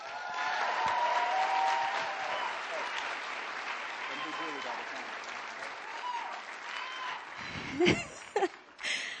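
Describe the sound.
A church audience claps to welcome a speaker, a dense, sustained round of applause that slowly thins out, followed by a few scattered voices and light chuckles at the end.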